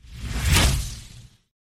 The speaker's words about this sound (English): I want to try and see if I can make this little transition sound thing work.